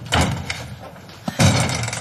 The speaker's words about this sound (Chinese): 推门进了卧室